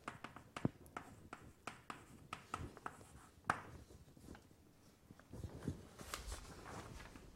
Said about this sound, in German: lassen Sie mich das dazu schreiben